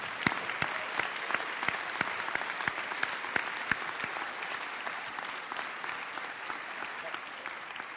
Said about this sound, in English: So could we have a big hand from the audience for the sponsors?